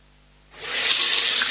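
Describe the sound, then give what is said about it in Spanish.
Water gushes from a tap, starting abruptly after a short silence and then holding as a steady, bright, loud hiss until the end. “Abres la llave, sale agua.”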